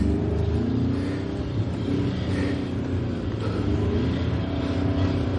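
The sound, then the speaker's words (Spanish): A Volkswagen car drives up a ramp in an underground garage, producing a steady, even engine rumble with a faint rise and fall in revs that continues throughout without pauses. “Conduce un Volkswagen a través de una cuesta en un garaje subterráneo.”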